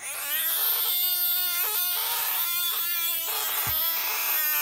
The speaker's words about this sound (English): Is that a toddler playing with a squeaky toy or a frog? It is a frog, and he didn't sound very hoppy.